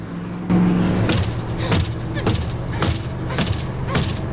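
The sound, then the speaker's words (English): Car driving along a desert highway, its engine a steady low roar broken by recurring, regularly spaced surging bursts. “It's later, and they're driving along a desert highway.”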